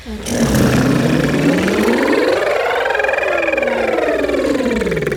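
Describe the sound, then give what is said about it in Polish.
Several voices do a buzzing lip trill that imitates a small motor as a vocal warm-up, gliding in one continuous purring sweep from low pitch up to a high peak and back down. “ale utrzymując motorek. Dziewczyny, uwaga, jedziemy. A spróbujmy teraz zacząć trochę niżej.”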